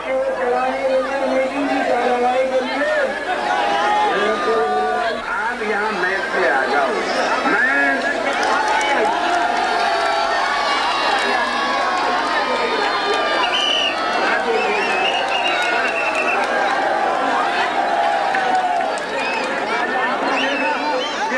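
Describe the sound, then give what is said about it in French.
Thousands of people at a political rally in India roar and shout as a famous woman steps off a train. The dense, loud clamour of many voices stays steady throughout. “vous avez filmé l'accueil triomphal des foules qui scandent son nom, Poulan Devi, quand elle sort du train.”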